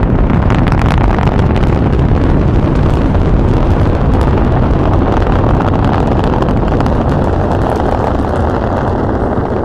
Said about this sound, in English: The Zan leaving Earth forever. They're blasting off.